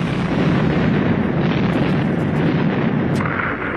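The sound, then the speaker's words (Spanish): Artillery shells burst in trees during a World War II ambush on a squad of Sherman tanks, a loud, sustained, rumbling roar of overlapping blasts with no clear gaps between them. “Nos han dado, nos han dado, vamos a saltar artillería en los árboles.”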